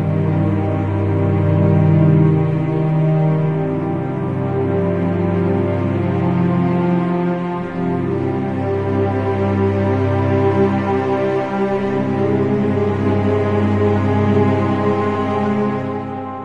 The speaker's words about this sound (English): What you just heard there was the menu theme from Lugaru, kind of a favourite of game of mine